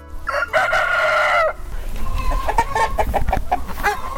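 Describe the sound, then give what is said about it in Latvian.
Hens cluck in a new 70 m² farm barn, a flock of about 350 brown hens with automated feeding and ventilation. A long harmonic call opens, followed by many short, loud, rhythmic clucks from several birds. “Viņa audzēja 350 vistas”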